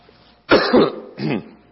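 Throat clearing in two rough, raspy bursts: a longer gravelly one, then, after a short pause, a briefer one. Both are loud and stand alone with no talk.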